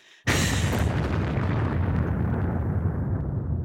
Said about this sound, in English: I love how like the tradition of The Bomb in radio is when someone like drops a big song. I've now been able to transfer that experience into big thoughts.